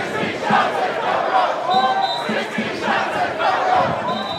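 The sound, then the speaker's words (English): Protesters in Chicago chant in unison at a rally demanding justice and police reform after a police shooting of a teenager, a loud crowd repeating a short rhythmic phrase roughly every second. “There's one protest chant that's become a mantra in this Chicago case.”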